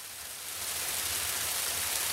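Pouring rain falls on a Carpathian mountain village as a dense, steady hiss of water, swelling slightly in the first moment and then holding constant, with no voices.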